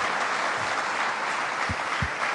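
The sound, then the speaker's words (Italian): Audience applause for a speaker at a live talk: dense, continuous clapping at an even, fairly loud level, with a few low thumps near the end. “Grazie amici per l'applauso.”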